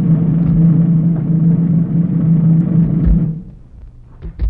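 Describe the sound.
A drum roll beaten on command during a soldiers' drumming-out scene in a radio drama: a continuous, even rumbling roll that holds for about three seconds and then cuts off, followed by a few faint knocks.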